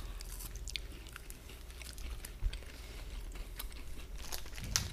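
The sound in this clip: Soft chewing and light crunching as people taste a sakura-flavoured sweet snack, with faint, scattered crisp clicks and mouth noises at an irregular pace and no talking.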